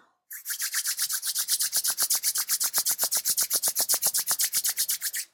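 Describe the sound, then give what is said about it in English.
Palms rub together briskly during a guided meditation, making many quick, even swishing strokes in a steady fast rhythm for about five seconds, with no other sound. “Rub your palms together.”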